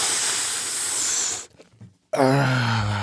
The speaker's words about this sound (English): listen to this. This is all one inhale. You see what I'm saying? Like, that's all one.